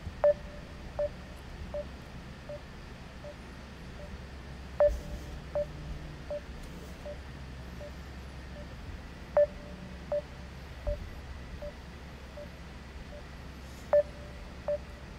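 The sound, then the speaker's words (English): Telephone keypad tones as a number is dialed: a faint, regular series of short beeps, with a louder tone every few seconds over a low background hum. “I want to dial up my boy Mark Edwards and get him on the show. So let's hang tight.”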